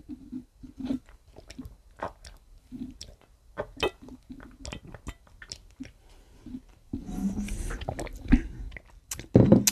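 Someone gulps and swallows an energy drink straight from the bottle, making many quiet wet clicks and glugs in an uneven rhythm. A louder, noisier stretch comes near the end.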